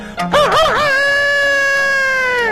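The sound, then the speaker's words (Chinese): A rooster kept by a household crows once, loud and alone: the call opens with a quick wavering warble and then settles into a long sustained tone that fades at the end. “还养活了两只鸡，这两只鸡也不搅闷，天天打鸣”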